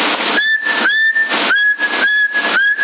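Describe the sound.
Whistling into a CB radio microphone on the 27 MHz band comes through as several short, steady whistled tones. They are thin and band-limited, separated by bursts of radio hiss.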